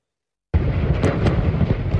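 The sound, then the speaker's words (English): Metal canisters of butane and nitrous oxide explode in a fire. After half a second of silence, a loud blast bursts in and settles into a sustained, roaring rumble with a couple of sharper pops. “Canisters filled with butane gas, nitrous oxide, and lighter fluid blew apart and spewed into the air. There's metal canisters that are exploding,”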